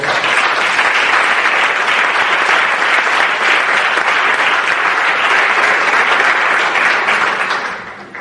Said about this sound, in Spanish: Vamos a darle un aplauso a Óscar.